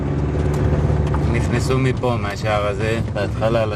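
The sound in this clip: A car drives through a kibbutz, its steady low engine and road rumble running continuously beneath people talking.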